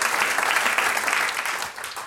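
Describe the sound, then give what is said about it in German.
Steady audience applause for a singer, dense continuous clapping at an even, fairly loud level for about two seconds without a break. “Das ist einmal dein Applaus,”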